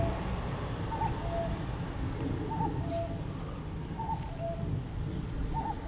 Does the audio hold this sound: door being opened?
no